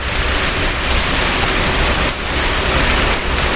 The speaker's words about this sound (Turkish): Çin'in Guangxi bölgesinde etkili olan sağanak neredeyse faciaya yol açıyordu.